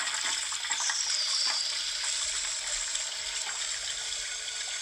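A toilet flushing: water rushes in a steady, loud wash for the whole clip, with a brief high whistle early on.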